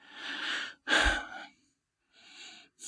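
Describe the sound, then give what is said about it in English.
Deep breaths drawn in and let out, a few broad airy rushes of breath separated by short silences, the loudest in the middle, with no voices. “So take two breaths.”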